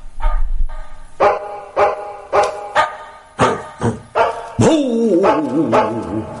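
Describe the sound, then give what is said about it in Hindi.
A person's voice imitates a dog barking: a quick run of short, harmonic barks at a steady rhythm, ending in a longer, wavering bark that rises and falls in pitch. “लालिया तो चले लेकिन मोतिया को कोई भौंके तो मोतिया सुनाए कि बेवकूफ मूर्ख लोग कुंभ में चलो, विघ्न क्यों करते हो, भौं भौं भौं भौं भौं भौं भौं भौं भौं”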